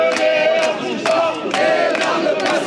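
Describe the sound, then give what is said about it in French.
Protesters chant slogans outside a courthouse in Montpellier after a trial, their massed voices rising in loud, repeated rhythmic bursts that carry over a steady crowd din. “Au tribunal judiciaire de Montpellier, les slogans des manifestants anti-Ménard”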